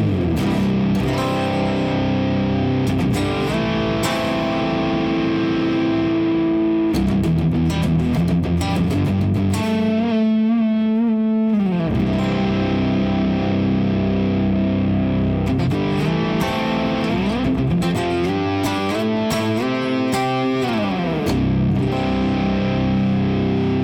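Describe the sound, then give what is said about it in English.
Heavily fuzzed electric guitar through a JHS Bender fuzz pedal into a Mesa Gargantuan cabinet, thick distorted chords and riffs played loudly and continuously with no talking. “the JHS Bender into the Mesa Gargantuan sounds like this.”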